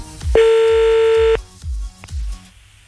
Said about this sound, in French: Donc on appelle, c'est parti, on y va.